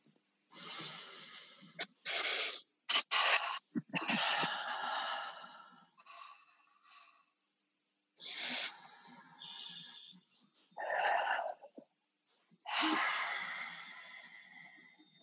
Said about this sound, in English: We're going to take a couple of deep breaths.